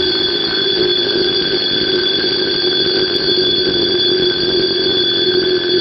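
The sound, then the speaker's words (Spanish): An alarm clock rings loudly and without a break for the whole clip. It is a steady, bright, high ringing tone, and no voices are heard. “un sonoro despertador le salvó la vida, despertándola a ella y a su fallido protector Glenn”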